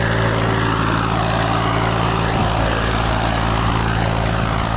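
Steady engine drone from a tractor ploughing a broad green field to prepare it for planting. The loud, even hum holds unbroken throughout, with no voices.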